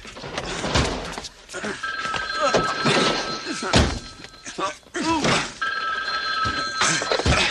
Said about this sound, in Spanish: ¡Teléfono!